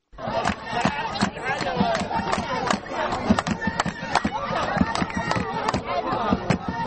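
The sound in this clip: Football fans of two teams fill a stadium for a final, with loud crowd chatter and shouting over rapid, sharp drum beats that keep going throughout.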